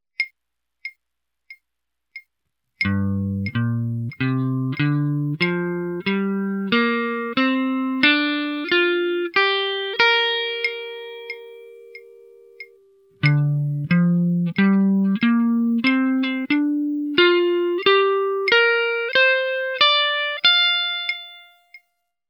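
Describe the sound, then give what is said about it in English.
Guitar plays two minor pentatonic box patterns. A few faint clicks come first, then two runs of single picked notes climb steadily in pitch. The first run ends on a long sustained note before the second begins. “Example 1 shows the two most familiar minor pentatonic box patterns. Here's what they sound like.”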